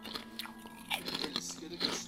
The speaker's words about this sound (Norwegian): Så nå prøver jeg, da. Kirsebær og potetskruer. Skal vi se om det er noe godt. Yoghurt.